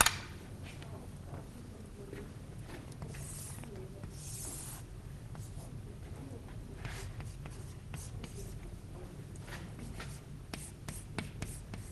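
Writing on a board during a German lecture on analog low-pass filters: many short, soft scratchy strokes over a steady low hum, with quiet pauses between bursts of writing.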